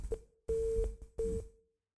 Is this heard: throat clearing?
no